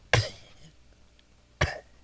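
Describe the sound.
A person imitates a cat coughing up a hairball: two harsh, throaty cough bursts about a second and a half apart, with a near-silent gap between them.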